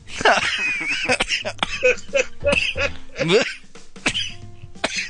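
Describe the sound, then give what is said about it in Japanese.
A person chokes and coughs: many rough coughs and throat-clearing bursts mixed with strained vocal sounds. “むせるわ。すいません、本当に。”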